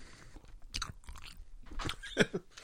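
Chewing of a garlic-flavoured snack, moist crunching and smacking mouth sounds in a few irregular bursts, with one sharper crunch near the end, fairly quiet and without talk.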